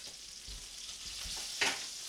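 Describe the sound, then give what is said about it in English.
A giant kielbasa scrapes across a hot griddle while cooking at a Super Bowl party, with a steady greasy sizzle throughout and one short, sharper scraping burst near the end. “cleaning the griddle with a giant piece of kielbasa. Scraping it right.”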